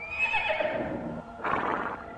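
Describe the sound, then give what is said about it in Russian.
A roan stallion neighs in a tonal whinny that falls in pitch, then gives a breathy, noisy snort, loud and alone. “И снова заржала и схрапнула лошадь.”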